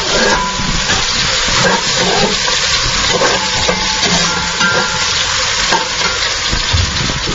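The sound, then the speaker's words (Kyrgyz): Meat, carrots and onions fry in a cauldron with a steady, loud sizzle and crackle, mixed with stirring scrapes throughout and no speech. “Казанга азыр эт салдым, сабез, пияз салдым.”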